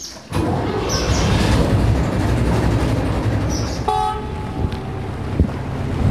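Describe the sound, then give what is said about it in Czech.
A boat setting off on a lake during a regatta, its engine rumbling steadily under heavy wind buffeting, with a brief tonal toot partway through. “Tak, loď je připravená a může se vyrazit.”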